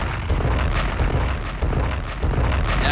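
Bomb explosion sound effect: a dense, deep rumbling roar that lasts the whole time, with a few heavier bursts rising out of the steady blast noise and no talking.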